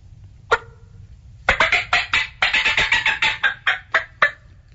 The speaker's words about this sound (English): So as they come out of the trees, things get a little crazy in the woods, and it's called the fly-down cackle. And it sounds like this.